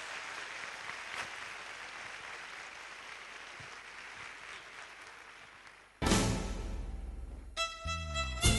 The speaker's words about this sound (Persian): پس یه دست خوبی دیگه برای خودتون بذارید